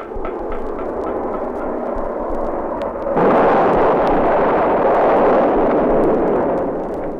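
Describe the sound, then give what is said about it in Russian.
A real battle forms a dense, continuous roar of gunfire and blasts, with faint sharp cracks early on, then grows louder and fuller partway through. “А это уже настоящий бой. Вот как звучит стена такого боя.”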